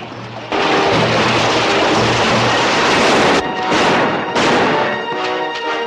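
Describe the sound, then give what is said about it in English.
Gunfire sound effect of a hasty retreat under fire, a loud, dense roar of shots that sustains for several seconds, then breaks into a few separate blasts. “The remaining brothers and their accomplices return fire as they beat a hasty retreat.”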